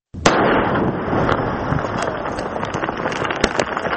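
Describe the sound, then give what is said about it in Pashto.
Defused landmines detonated in Maiwand district, Kandahar: a sharp blast opens into a loud, sustained rough roar scattered with crackling pops. “دا د کندهار د میوند ولسوالۍ په سره بغل سیمه کې د هغه ماینونو د چاودنې غږ دی چې تازه د یوه پولیس افسر لخوا شنډ او په کومو امکاناتو د مځکې څخه راایستل سوي.”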